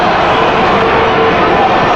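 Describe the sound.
Football crowd noise at Estadio Cuauhtémoc forms a dense, steady roar, with a commentator's voice speaking over it.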